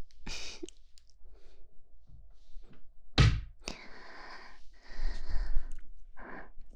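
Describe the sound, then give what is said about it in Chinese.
A door being shut gives a single heavy thud partway through. Faint rustling and breathy noise come before and after it. “我把门关上。”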